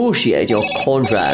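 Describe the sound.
Telephone ringing in an office, faint and steady beneath continuous talk.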